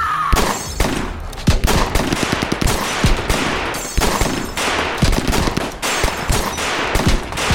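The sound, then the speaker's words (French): Dense gunfire from six men firing together in a 1934 roadside ambush of a Ford car: loud, rapid overlapping shots in a near-continuous fusillade with sharp individual cracks, keeping up for the whole stretch. “Les six hommes de Frank Hamer se mettent à tirer tous ensemble. Ils vident leur chargeur, rechargent et tirent à nouveau”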